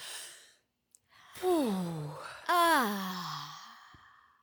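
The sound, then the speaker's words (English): A deep breath drawn in, then two long voiced sighs breathed out, each sliding down in pitch, clear and alone with short quiet gaps. “This is your weekly reminder to take a deep breath.”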